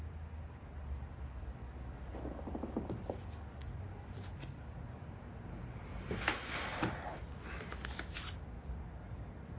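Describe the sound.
A deck of playing cards is cut and handled, making soft, papery riffling sounds in two short bursts. They are faint over a steady low hiss.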